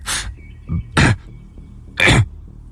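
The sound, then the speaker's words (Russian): A man coughs hard right after speaking excitedly, in air that is hard to breathe. There are three harsh, loud coughs with a softer hack between the first two, each separated by short pauses. “«Ты вернулся!» — взволнованно произнес он и тут же закашлялся.”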